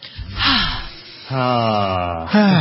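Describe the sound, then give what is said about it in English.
A deep breath taken as a calming pause: a long, noisy inhale, then a voiced, sighing exhale, with a second voiced breath rising at the very end. “And take a deep breath.”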